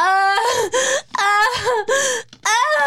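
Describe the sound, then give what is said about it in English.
A voice imitates crying in several drawn-out, wavering wails broken by short catches of breath, fairly loud and with no other sound. “I cry when I cry. It sounds like this.”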